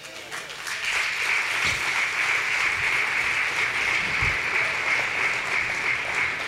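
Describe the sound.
Applause from a church audience during a sermon: dense, steady clapping that swells in within the first second and then holds at an even, loud level to the end.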